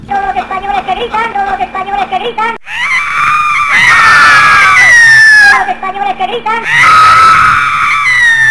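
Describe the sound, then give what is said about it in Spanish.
A crowd of Spanish people screaming in two loud bursts of high, sliding shrieks, which alternate with shorter passages of rhythmic, tonal sound. “Todos los españoles que gritan.”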